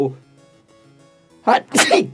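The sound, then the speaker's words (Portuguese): A single human sneeze: a soft voiced build-up, then a loud, sharp two-part burst of breath near the end. “Espirrei.”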